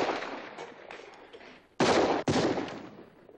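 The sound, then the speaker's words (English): Gunshots from a 1969 Western film gunfight: a fading rumble of fire gives way to two loud, sharp blasts in quick succession. “how many shots were being shot in the beginning of the gunfight here”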